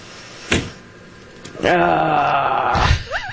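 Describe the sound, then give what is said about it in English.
A woman in a played recording lets out a drawn-out, voiced groan lasting about a second, with other vocal sounds just before and after it. “That's my favorite part right there. That part at the end. You know, I for some reason I relate to that groan right there.”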